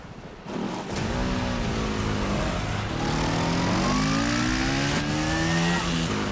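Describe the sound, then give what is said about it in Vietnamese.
A motorbike speeds away, its engine bursting in after a quieter start and then revving hard and loud, the engine pitch climbing again and again as it accelerates. “Ôi, tiền của tôi. Đuổi theo chiếc xe máy kia.”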